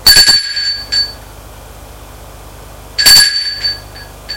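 A bell rings in two short, bright metallic bursts about three seconds apart, each ringing briefly before fading into quiet.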